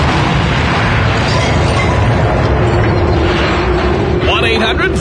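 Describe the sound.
A loud explosion sound effect fired off on a radio call-in show to blow up a caller, a dense rumbling blast that stays heavy throughout, with speech mixed in.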